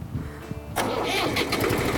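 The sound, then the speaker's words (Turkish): A car engine cranks and catches as the ignition key is turned with the clutch pressed: a low faint rumble first, then a sudden loud burst into a steady, busy running roar that continues to the end. “Ondan sonra şu kontağımızı çevirdik mi motor çalışacak.”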